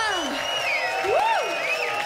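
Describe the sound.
Concert crowd cheering and applause after a live band performance, a continuous murmur of voices and clapping with a few high gliding whoops that rise and fall above it.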